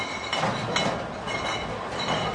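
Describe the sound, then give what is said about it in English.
Many beer mugs clinking together in a crowd in Munich, Germany, form a dense, continuous clatter of glassy knocks with a few sharper clinks standing out, steady in loudness throughout. “today in Munich, Germany, with many mugs clinking.”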